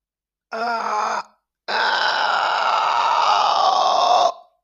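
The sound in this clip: A voice groans in imitation of stretching the body after hours in one position: a short voiced grunt, a brief pause, then a long, strained, steady moan.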